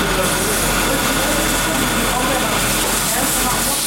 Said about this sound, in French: Un chargeur vient récupérer par la suite un outil avant de se lancer. Le chargeur se met alors à tourner.